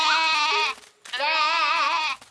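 A person imitates a goat bleating, giving two long, loud, wavering bleats with a rich, buzzy tone and a brief gap between them.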